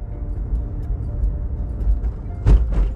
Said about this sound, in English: Sorry, driving as well. I know, I shouldn't be driving at the same time. Bear with me. Coming to a stop sign shortly